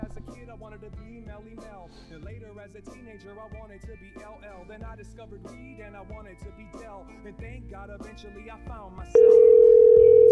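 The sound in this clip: A telephone dial tone, a steady, loud, unbroken tone that starts abruptly near the end after a long stretch of softer, shifting tonal sounds.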